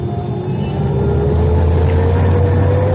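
A Rolls-Royce car pulls away into Paris traffic, its engine a loud, steady drone with a whine that rises gradually as it accelerates.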